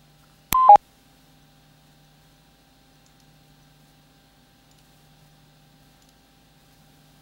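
Touch-tone telephone dialing: two short keypad tones in quick succession, followed by near silence.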